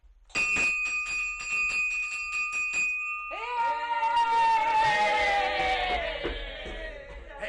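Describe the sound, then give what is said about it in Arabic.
A school bell rung to end a lesson: rapid, evenly spaced metallic strikes over a steady high ringing tone, then a denser, louder clangor of overlapping tones that slowly fades. “الحصة خلصت، أما أضرب الجرس بقى.”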